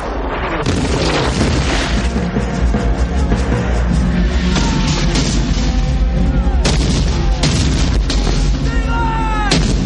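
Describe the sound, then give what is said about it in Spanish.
A French artillery broadside striking a fortress wall in a siege: loud, continuous heavy booms and roaring blasts that overlap into a dense, rumbling barrage with no break. “Una andanada francesa impacta en la muralla.”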